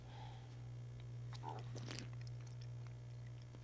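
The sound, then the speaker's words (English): Mouth sounds of someone tasting a drink: a few brief, faint wet sips and smacks clustered in the middle, over a steady low hum. “Nothing more exciting than listening to somebody taste something. Sorry about that.”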